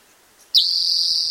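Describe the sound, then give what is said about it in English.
A bird sings a single sustained high, whistle-like note that begins abruptly after a brief quiet moment and holds steady to the end. “Birdsong type.”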